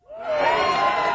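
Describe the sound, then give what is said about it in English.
Young TK and kindergarten children cheer and shout together at the opening of a brand new school, a brief burst of crowd noise that swells quickly and holds steady and loud. “That's the sound of incoming TK and kindergarten students opening a brand new school in Mission Bay.”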